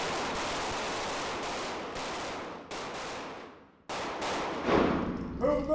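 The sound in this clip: Gunfire from a school-staff shooting drill: many loud, sharp shots that overlap into dense, noisy bursts. A brief lull comes before a final volley.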